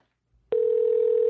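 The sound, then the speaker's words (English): A telephone dial tone plays while a call is being placed: a steady, loud, unbroken hum starts after a brief silence and holds without change to the end, with no talk over it. “We're going to call Ashley right now, and she's our last caller of the night.”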